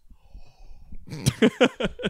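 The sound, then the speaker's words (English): A big wheezing inhale follows a quiet start. It arrives as a rapid run of breathy, rasping gasps in the final second, loud and ragged. “That was a big inhale.”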